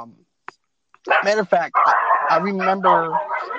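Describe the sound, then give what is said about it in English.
Dogs barking and yipping in short bursts, mixed with a person talking over the noise. “Hang on, just a second. I got a little bit of an interruption from dogs.”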